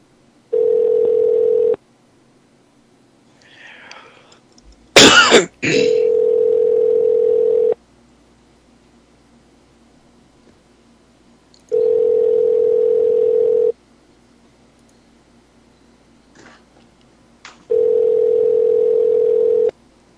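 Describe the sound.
Ringing tone on an outgoing telephone call: four steady, low beeps, each about two seconds long, separated by long silent gaps, with a brief sharp noise just before the second beep.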